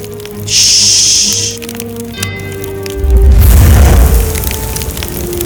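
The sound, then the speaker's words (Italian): Fire consuming a castle: a bright hiss, then a loud, low rumbling roar with crackling bursts, set over sustained musical tones. “Il castello è in fiamme!”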